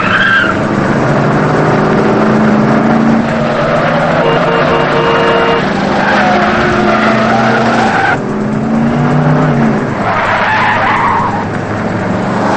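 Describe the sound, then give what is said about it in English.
Tire squeals and roaring engines as cars speed and swerve through city street traffic in a chase, loud and continuous, with high skidding squeals rising and falling over the constant engine noise. “She darts around cars as Thurlow squeezes between cars on a city street.”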